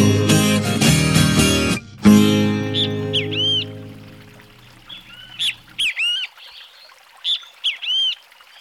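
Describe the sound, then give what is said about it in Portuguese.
Countryside birdsong from a great kiskadee, a thrush and a green-winged saltator: bright, repeated chirps and whistled calls come in short bursts after a stretch of music fades away. “Aí com esses cantos de passarinho aqui do interior para o pessoal de São Paulo, apesar que o Bentivy hoje está mais na cidade do que nos sítios, aí nas fazendas também. Então tá aí o Bentivy, vem sabiá, vem trinca-ferro”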